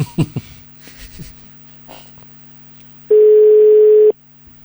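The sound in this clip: A telephone ringing tone sounds while a call is being placed: one loud, steady electronic tone at a fixed pitch lasting about a second, after a few faint, scattered sounds.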